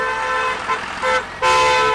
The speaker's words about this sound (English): Red coal trucks the size of armored vehicles cut through the toxic sulfur smog blanketing China's coal country.